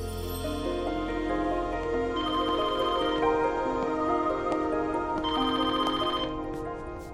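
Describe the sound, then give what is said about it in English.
A telephone rings after a number has been dialed, the ring coming in two bursts over a steady tonal background, with no voices. “Here, dial 4541 and tell them you've got the package.”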